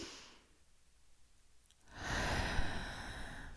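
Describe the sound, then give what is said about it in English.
One deep, slow breath during a guided relaxation exercise: near silence at first, then a soft, airy rush of breath that swells and holds steady to the end. “take a deep breath in”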